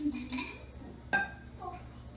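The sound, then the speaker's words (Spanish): Two semi-beaten eggs go into a mixing bowl with a few faint clinks and knocks of the bowl and utensils, separated by soft pauses. “Y a ellas yo les voy a añadir 2 huevos semibatidos, que van a ayudar en el crecimiento cuando lo llevemos al horno”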